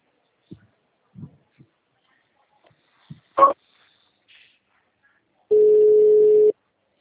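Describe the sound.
Telephone ringing tone while a call is transferred: a single steady, mid-pitched tone lasting about a second near the end, after a few faint clicks and short blips over near silence.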